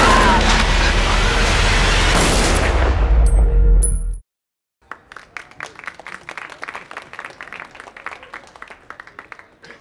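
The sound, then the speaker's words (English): Machine-gun fire from a film scene with apes. A loud, dense roar cuts off abruptly, then a rapid rattle of many sharp reports follows. “Apes plus machine guns, not a good thing.”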